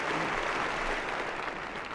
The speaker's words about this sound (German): Und Herr Direktor Böhm tritt unter stürmischen Applaus an das Rednerpult.